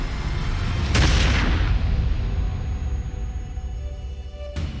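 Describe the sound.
A shotgun is fired once with a loud, booming blast that trails into a long rumbling decay over steady background noise, and a brief sharp crack comes near the end.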